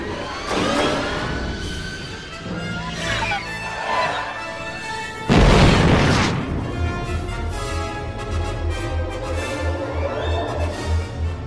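Pod canisters are fired during a spaceship chase, and one loud, sharp explosive burst erupts midway through amid continuous engine roar and whining rumble.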